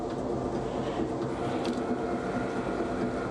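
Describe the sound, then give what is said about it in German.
A bakery machine portions wet, sticky bread dough with a continuous, even mechanical rumble and clatter, moderately loud and unchanging from start to finish. “Weil der Teig so nass ist, übernimmt die Maschine das Portionieren.”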